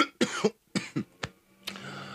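Harsh, raspy coughing as marijuana smoke goes down the wrong way: several dry bursts in an uneven rhythm, paired hacks followed by single ones, ending in a longer, rougher cough, with no talk over it.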